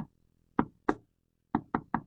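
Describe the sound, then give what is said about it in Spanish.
Knuckles rap on a door in a patterned signal: sharp, hollow knocks, one early single, a pair, then a quick run of three evenly spaced raps, each clean and separate against silence. “Tocaba la puerta, tienes que tocar.”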